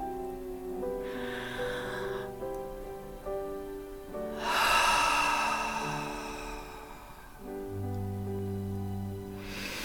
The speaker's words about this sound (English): I'll breathe here with you and give you that opportunity to experience an inhale and exhale